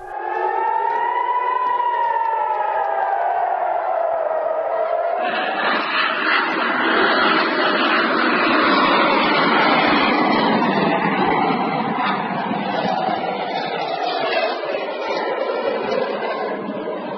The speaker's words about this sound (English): That was the sound of an air raid siren and the Iron Dome defensive projectiles launched at an incoming Hamas rocket last week.